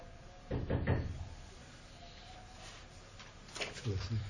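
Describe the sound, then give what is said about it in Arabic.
Knocking on a door during a lesson: a quick cluster of a few dull raps, then another brief group near the end, fairly faint over a steady low background hum. “دق على الباب، هو اللي دق الباب”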